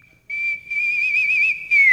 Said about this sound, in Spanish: A propósito de la silbadita